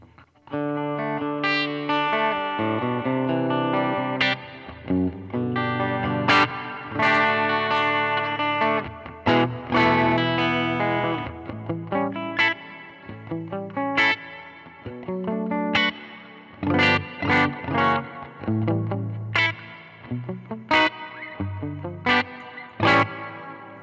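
Electric guitar playing arpeggiated notes through an Earthquaker Dispatch Master pedal, picked notes ringing into a sustained, washy tail with a light wavering modulation, the phrases pausing briefly between runs.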